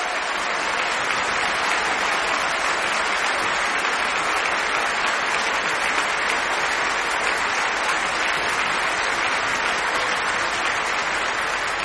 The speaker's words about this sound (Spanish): Aplausos para todos ustedes.